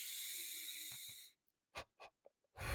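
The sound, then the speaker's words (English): Deep breathing as breath work to relax the back: one long, wheezy, hissing breath, then a few short, sharp breaths after a pause, and finally another strong breath. “Do a little breath work here and try to get my back to relax, guys.”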